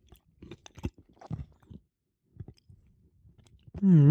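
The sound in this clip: Olives being chewed and tasted give a few soft, wet bites and crunches in irregular bursts, then a short hummed voice follows at the end.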